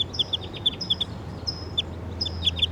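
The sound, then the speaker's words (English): A wild bird calls in a series of short, high-pitched chirps and thin whistled notes in an irregular rhythm, faint over a low steady rumble of background noise. “I hear the wild bird calling in the distance.”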